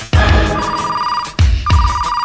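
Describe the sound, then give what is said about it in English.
A secret gadget phone rings with steady electronic tones, sounding in a few separate bursts: one long ring, then a short break before two more rings start close together. “Secret gadget phone.”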